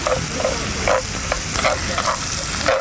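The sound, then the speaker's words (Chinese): Carrots being stir-fried in a hot pan give a steady hiss of sizzling oil, broken by many short scraping and stirring bursts at an uneven rhythm. “先要下红萝卜炒”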